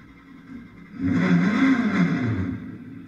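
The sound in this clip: A race car engine during a race restart after a red flag, swelling in sharply after about a second to a sustained, loud roar with a wavering pitch, then easing slightly toward the end.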